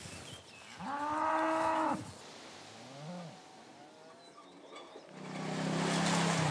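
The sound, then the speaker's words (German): Cattle mooing during an early-summer change of pasture. Two long, loud moos with a shorter, fainter low call between them, over a quiet background. “Jetzt im Frühsommer wechseln die Rinder dreimal am Tag die Weidefläche.”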